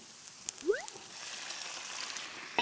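Faint, steady sizzling hiss of ingredients being stir-fried in a pan, with a few light clicks scattered through and a sharper clatter at the very end.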